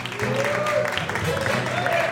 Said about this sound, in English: Give it up for Anna Breton.